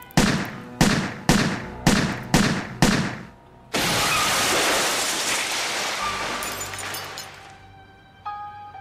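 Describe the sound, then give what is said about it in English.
Gunshots in a rapid, evenly spaced series of sharp cracks, each with a short decay, followed by a long, loud, rushing noise that slowly fades, then a faint tone. “He shot him. Shot him until he fell backwards out the window.”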